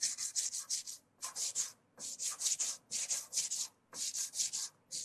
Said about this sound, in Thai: ในขั้นตอนนี้เราอาจจะใช้กระดาษทรายนะครับเพื่อช่วยในการขัดนะขอบของวงกำไรนะครับให้มีขอบที่เรียบเสมอกันได้นะครับ